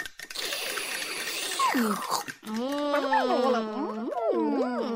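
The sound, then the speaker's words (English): A milkshake is mixed with a buzzing, whirring noise lasting about two seconds, followed by a wavering, sing-song voice. “So Piggy Stardust mixed up a milkshake for everyone.”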